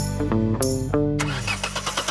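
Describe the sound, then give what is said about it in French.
A car engine cranks and struggles to start in the cold, a strained whining starter tone shifting in steps before breaking into rougher, rattling noise. “Allez, démarre! Elle a pris froid, j'ai l'impression.”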